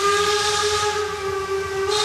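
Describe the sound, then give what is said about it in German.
A narrow-gauge steam train's whistle on an island railway: one steady, sustained high tone with a breathy steam hiss around it, loud and unbroken throughout. “Rasender Roland, so heißt nämlich diese Schmalspurbahn, die hier über die Insel Rügen fährt.”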